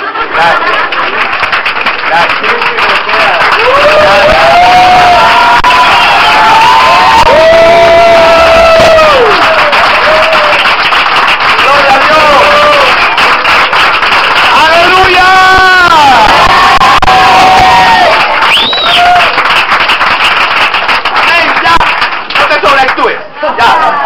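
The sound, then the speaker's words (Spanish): An audience at a church service cheers and applauds: loud, dense crowd noise runs throughout, with shouted voices and whoops that rise and fall over steady clapping. “Usted se levantaría a aplaudir, ¿verdad?”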